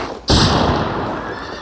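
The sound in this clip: Horses neigh during a mounted chase through snow, with a loud, harsh burst that starts abruptly and holds steady, slowly fading toward the end.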